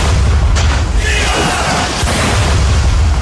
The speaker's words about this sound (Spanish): El combate comenzó con un intenso intercambio de artillería.